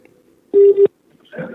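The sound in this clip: Telephone keypad dialing while a call is being placed: two short electronic tones run together, fairly loud, following near silence and followed by a brief faint sound.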